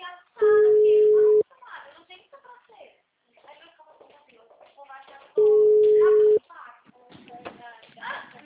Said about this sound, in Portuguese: vou ligar pra cliente, tá?